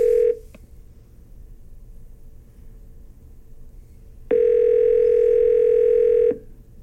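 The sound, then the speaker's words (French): A telephone line tone sounds while a number is being called. A brief tone is cut off at the start, then after a quiet gap a single steady, buzzing tone holds for about two seconds. “Et donc, on le contacte à l'instant au numéro qui est inscrit sur le billet, comme ça, ici.”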